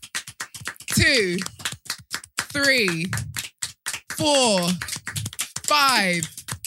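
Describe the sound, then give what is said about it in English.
A group claps hands in quick, steady beats, a dry patter of sharp claps running under a person's loud talk. “Let's just clap. Let's clap. He's just okay. Come on, hit the numbers. We're going to clap.”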